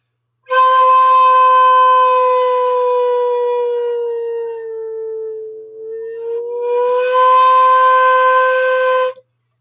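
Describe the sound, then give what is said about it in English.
A sustained flute note bends in pitch as the player shifts the chin angle against the blowing edge. The tone holds, then slides gradually lower and softer before rising back to its starting pitch. It is played alone. “Now listen to what happens when I change the angle of my chin.”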